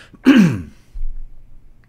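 Throat clearing: one strong, rasping burst that drops in pitch, followed by a softer, low grunt-like clearing, heard alone without talk.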